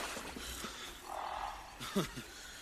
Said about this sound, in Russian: Девушка идет на звук, который издает раненый змей-волк.